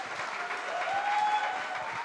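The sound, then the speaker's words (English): Applause from a church audience welcoming the pastor's wife to greet them, a dense, even patter of many hands clapping steadily without pause. “Put your hands together for LP.”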